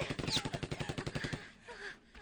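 Automatic gunfire during a wartime clash with Iraqi soldiers, shot from a high position: a rapid, evenly spaced string of sharp reports lasting about a second and a half, then stopping abruptly to leave low, quiet noise.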